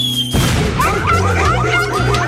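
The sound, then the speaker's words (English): A 4th of July firework goes off with a sudden loud bang after a brief quiet tone, followed by sustained crackling and sizzling noise. “Introducing 4th of July fireworks.”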